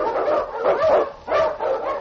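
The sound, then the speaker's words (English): Yelping barks and yips from a husky sled dog, an Eskimo lead dog running through storm and snow, come in a few quick, fairly loud bursts with whining between them. “A Wonder Dog King, swiftest and strongest of Eskimo lead dogs, blazes the trail through storm and snow for Sergeant Preston”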